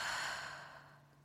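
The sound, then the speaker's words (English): A slow, deep breath through the nose during a calming pause exercise. One long, airy exhale starts strong and fades gradually over a faint low hum. “Take a deep breath in and out of your nose.”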